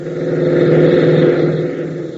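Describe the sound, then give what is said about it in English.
A jeep engine racing across an airfield gives a steady, mid-pitched motor roar that swells slightly in the middle and eases toward the end, with no voices present. “Ben, Tank, and Gale race into the hangar, reappearing within seconds in a jeep, and race across the field.”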